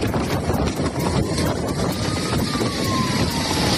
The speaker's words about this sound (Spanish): Las fuertes rachas de viento, como escuchas, están dificultando controlar las llamas.